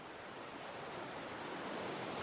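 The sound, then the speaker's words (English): Gentle ocean waves lap at rocks on a beach where nearby islands calm the sea, making a soft, steady wash of surf that runs unbroken, with no voices. “Beyond the rocks is the ocean. Its waves have been tamed by the other islands you can see near the beach. So they lap gently at the rocks.”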